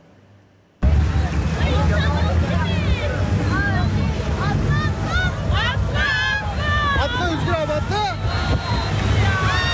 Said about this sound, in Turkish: Tatil eğlencesi panikle son buldu. Yolcular batan tekneden atlayarak canlarını kurtardı.